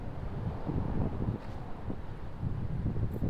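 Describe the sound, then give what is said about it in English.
Wind gusting outdoors and buffeting the microphone, a steady, loud low rumble with rough fluttering bursts throughout and no voices. “There's a little wind.”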